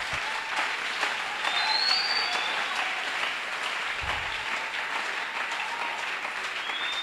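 An audience bursts into steady, sustained applause: dense clapping holds at an even loudness for about seven seconds, with no voices over it.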